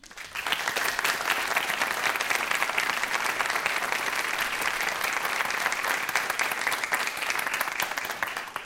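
An audience welcomes a guest with sustained, dense applause that holds at an even, fairly loud level from start to finish, with no voices on top.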